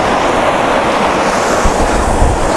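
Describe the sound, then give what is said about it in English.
Steady rushing roar of a waterfall beside a big rock, a loud, unbroken wash of falling water with low wind buffeting underneath. “But it is a very cool waterfall.”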